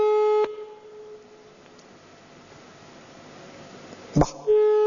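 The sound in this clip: Telephone line tone on a call being placed again: a steady mid-pitched tone at the start breaks off into low line hiss, a brief burst of noise follows, and the tone returns near the end.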